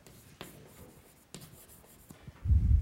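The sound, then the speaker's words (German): Someone writes on a board during a lecture on building a grammar parse tree. Faint scratchy strokes are broken by a few sharp taps, and a louder low rumble follows at the end. “So, und jetzt schreibe ich hier nur OP für Operator und dann kommt Ausdruck.”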